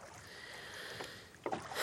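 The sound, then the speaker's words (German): Faint watery swishes and splashes of oars rowing a rowboat on a lake, with a few soft strokes over a low steady wash and no voices. “Aber hören Sie doch mal auf zu rudern.”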